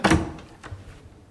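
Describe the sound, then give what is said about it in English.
A doorknob is turned and a door opened: a solid thunk at the start, then a second, softer knock and a faint rattling tail. “Sorry, how does this doorknob work? Just turn it.”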